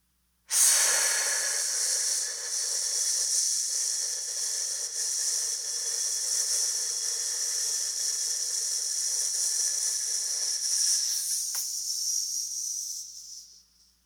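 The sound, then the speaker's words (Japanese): Slow breathing during a relaxation exercise: one long, airy, breathy hiss sustained evenly for about thirteen seconds before stopping, with no talk. “5秒吸って、1秒止める。15秒吐く。”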